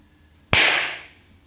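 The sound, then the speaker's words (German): One loud hand clap gives a sharp crack, then a bright ringing tail that fades over about half a second, with only faint background noise around it. “Das hat richtig geklatscht, das hat richtig gescheppert hier.”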